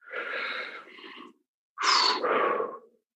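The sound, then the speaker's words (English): A deep breath: a long, airy inhale followed after a short pause by a louder, sigh-like exhale, heard alone without talk. “All right, so one more deep breath.”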